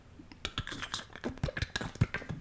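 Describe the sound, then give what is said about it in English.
Many quick, irregular keystrokes clatter in a fast burst of typing on a computer keyboard. The clicks are sharp and dense, with no talk over them. “See how quickly I can type that?”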